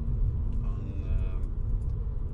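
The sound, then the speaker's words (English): Steady low rumble of a car moving through heavy city traffic on German roads, a dense, even drone that lasts throughout with no distinct separate events. “I'm in heavy traffic, just like Scottlo was”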